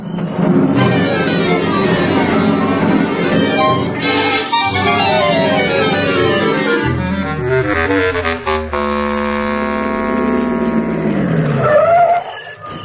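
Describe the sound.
A car driving off: a loud, continuous engine whine whose pitch repeatedly climbs and drops as it revs, with a brief squeal near the end.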